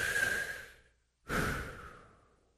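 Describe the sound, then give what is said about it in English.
A deep breath, taken slowly as part of a calming pause in a sermon: two long, faint, airy breaths, one drawn in and one let out, separated by a short silence, each fading gradually. “So how about taking a deep breath?”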